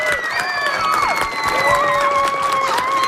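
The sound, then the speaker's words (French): Applause and cheering from a school audience of students' fans, greeting three fifth-grade pupils who sent in questions; excited children's voices shout over a steady patter of clapping. “je veux qu'on applaudisse vraiment très fort les trois élèves qui nous ont envoyé des très, très bonnes questions.”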